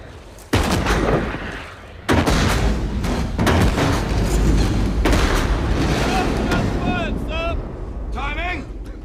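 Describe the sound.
Heavy cannon fire from a sailing warship's broadside, with loud booms and cracking blasts in quick succession, layered over a continuous rumbling roar; voices are present.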